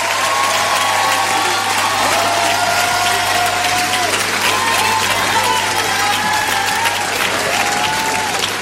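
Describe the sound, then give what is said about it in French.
An audience applauds and cheers for a performer, with dense, continuous clapping throughout, drawn-out vocal cheers above it and a steady low hum underneath. “Un maximum de bruit pour Marguerite, s'il vous plaît.”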